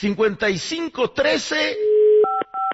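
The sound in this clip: A telephone number is dialed after a person talks: a steady dial tone sounds, then two short touch-tone beeps follow in quick succession.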